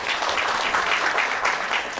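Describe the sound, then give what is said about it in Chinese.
Applause at a meeting as attendees approve a charter: dense, even clapping from many people, holding steady at a fairly loud level from start to finish. “如果没有的话，大家请鼓掌表示通过。”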